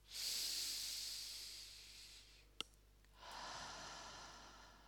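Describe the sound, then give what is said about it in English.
A deep breath drawn in through the nose as a long, airy hiss, a short click, then a slower, breathy exhale out through the mouth, both fairly loud and with no talking. “take a big, deep breath in through the nose and out through the mouth”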